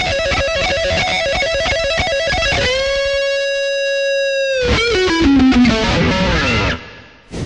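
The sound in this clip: Guitar pattern played sped up, with a distorted, effects-laden tone: a rapid run of notes, then one long sustained note, then more quick notes ending with a downward bending slide.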